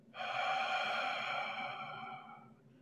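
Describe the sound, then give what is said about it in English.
One long, deep breath out through the mouth during a guided breathing exercise: a soft, airy rush that starts abruptly, holds steady, then slowly fades over about two and a half seconds. “Breathe out as much as you can.”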